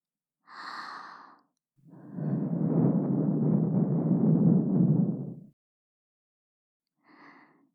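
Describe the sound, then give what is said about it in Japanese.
Soft blowing into the listener's ear, heard as one long, airy rush of breath lasting a few seconds, with brief breathy voice sounds just before and after it. “妹にお耳ふうふうされるなんて、恥ずかしくない？”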